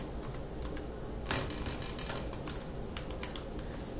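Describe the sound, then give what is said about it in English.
Text being typed on a computer keyboard: many quick, irregular key clicks tapping alone over a steady background hiss. “And I will type intuitive flow since I can.”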